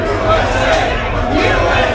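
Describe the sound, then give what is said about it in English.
Crowd of protesters shouting outside a bar, a loud mass of overlapping voices that stays dense and steady for the whole moment. “The crowd drowned them out.”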